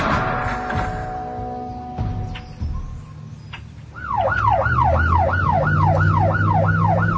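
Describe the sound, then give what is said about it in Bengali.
A police car siren wails in a fast, repeated rise-and-fall pattern, loud and continuous, following a quieter stretch of low rumbling and scattered knocks. “একা এলো না, সঙ্গে নিয়ে আসলেন এক গাড়ি পুলিশ।”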